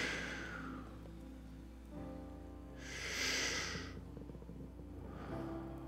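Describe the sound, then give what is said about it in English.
A big exhale during a guided moment in a church worship service: a broad, breathy rush of air swells and fades midway over a soft sustained musical bed, with fainter breaths before and after. “Receive what He has for you this morning. One more big exhale.”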